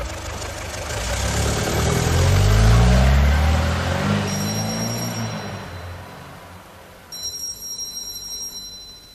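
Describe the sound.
A taxi engine pulls away, its low rumble swelling to a peak and then gradually fading over several seconds.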